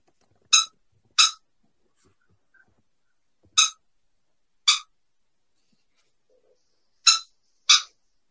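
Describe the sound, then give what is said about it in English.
A pet bird calling: six short, sharp, high chirps arranged in three spaced pairs, loud and clear against near silence. “If you hear some noise in the background, that's my bird.”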